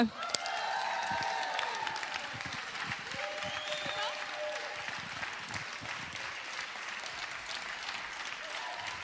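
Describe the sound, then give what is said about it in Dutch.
A church audience applauds Pastor Eva: a sustained, even roar of many hands clapping that starts sharply and continues at a steady moderate level for the whole stretch, with a few brief raised voices early on. “Ik wil graag een onwijs applaus vragen voor Pastor Eva.”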